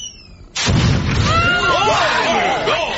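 A bomb explodes in one loud, sudden blast, followed by a long, rumbling decay that stays strong to the end.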